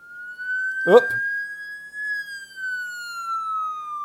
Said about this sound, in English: I was just delaying because I couldn't get the siren sound pulled up. It's the siren sound